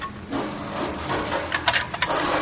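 Rummaging through drawers inside a house, with wooden scraping and rubbing, then a few sharp clattering knocks near the end.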